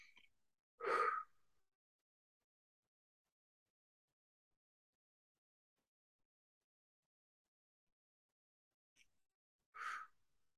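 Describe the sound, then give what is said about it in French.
Two deep, breathy human breaths, each short and soft, separated by a long stretch of silence. “On prend maintenant trois grandes respirations.”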